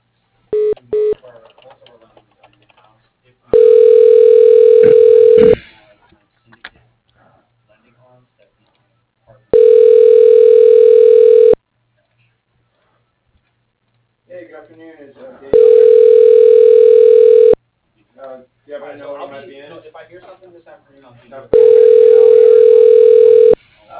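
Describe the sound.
Ringback tone of a telephone line while a call is transferred to voicemail: four steady, even two-second tones separated by longer pauses, with faint scattered sounds between them.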